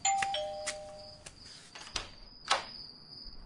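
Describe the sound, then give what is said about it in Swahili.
A doorbell rings at a home's front door, several sustained electronic chime tones with a few sharp clicks, fairly quiet and heard alone. “Na hafla, kengele ya mlangoni inalia.”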